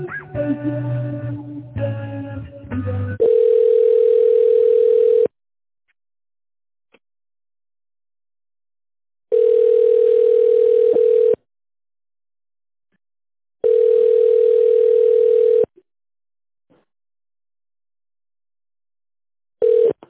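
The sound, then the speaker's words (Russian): Ringback tone on a phone line while a call is transferred to a colleague: after a short burst of garbled noise, three steady mid-pitched tones of about two seconds each, separated by silent gaps, then a fourth just beginning. “Сейчас я вас на Александру Гаженко переключу, минутку.”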